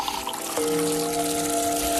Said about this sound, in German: Okay, ich gieße das mal gerade auf für dich.